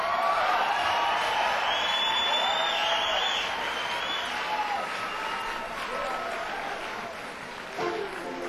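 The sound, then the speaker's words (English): An audience applauds and cheers for a drummer from Havana, Cuba, as he is introduced at a live concert. The dense clapping runs without a break, with scattered whoops and shouts over it, and thins slightly toward the end. “Put your hands together for Mr. Dave.”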